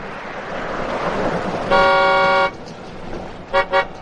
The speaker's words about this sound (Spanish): El coche atraviesa las estrechas calles y toca el claxon al doblar una esquina.